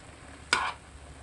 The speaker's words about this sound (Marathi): वरखाली व्यवस्थित परतून घेऊ।